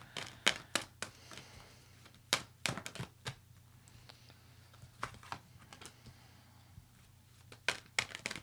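Tarot cards being drawn from a deck make a quiet run of crisp, irregular snaps and taps with short gaps between them and no talking.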